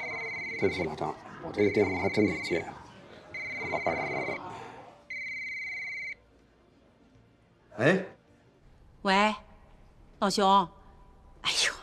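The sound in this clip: A telephone rings in four electronic bursts with gaps between them, overlapping talk, and then speech continues alone.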